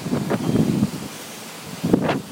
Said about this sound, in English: Whoa, this wind, it's not a normal wind like we usually get.